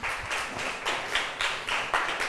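Students in a classroom clapping for a classmate, a fairly faint series of claps in an even, steady rhythm that repeats evenly throughout.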